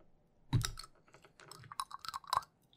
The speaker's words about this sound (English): For you audio listeners, this bottle opener is really small. Bruh. It's very tiny. Oh, you get that? It's a little bit of a ASMR.